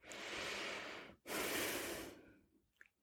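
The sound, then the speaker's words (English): Two long, airy breaths during a breath prayer, each full and steady and separated by a brief pause, followed by near silence with a few faint clicks. “let's do some breath prayers. Exhale and inhale through them.”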